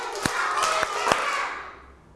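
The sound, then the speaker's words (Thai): Children in a lesson clap together on a teacher's count: a few sharp, separate claps in a loose rhythm, then the sound fades away toward the end. “ปรบมือ5ครั้ง”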